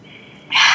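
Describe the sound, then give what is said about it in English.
A deep inhalation during a guided breathing exercise, one hand on the heart and one on the head: a soft breathy hiss that swells suddenly about halfway through and stays loud and steady until the end. “Breathe in.”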